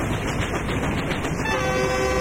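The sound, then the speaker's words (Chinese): A train travelling along a railway produces a loud, dense, continuous rumble and rattle that stays steady throughout, with no voices. “火车载着娘儿仨向省城驶去”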